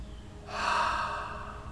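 A deliberate breath during a guided prayer exercise, a soft, quiet, airy rush that swells and then slowly tapers off.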